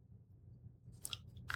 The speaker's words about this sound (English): Chocolate chip cookie. Oh, that's a good cookie. Should not be eating that.